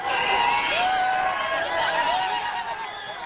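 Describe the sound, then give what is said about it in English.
Iraqis celebrate in the streets of Baghdad, a jubilant crowd cheering in a steady, loud din, with high whoops and shouts rising over the mass of voices. “Pent-up emotions from years of oppression literally spilled into the streets of Baghdad as jubilant Iraqis danced and cheered”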